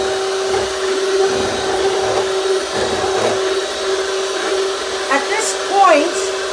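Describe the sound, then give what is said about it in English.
An electric hand mixer runs in a home kitchen with a steady, even whining motor hum that stays loud throughout, and a brief voice is heard near the end. “I'm just gonna speed up my mixer a bit.”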